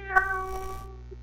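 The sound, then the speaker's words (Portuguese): A cat meows once in a short, clear, tonal call over a steady low hum, with no talk. “Levar a faca comigo, eu falo assim, ô gatinho, quer ficar ou quer ir pra casa?”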